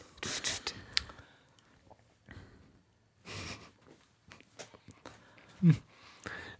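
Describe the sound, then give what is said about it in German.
A voice imitates a broom sweeping the floor with breathy, hissing swishes: several irregular bursts separated by short pauses. “Bevor es losgeht, muss hier dringend gefegt werden. Wie gut, dass ich ein Besen bin.”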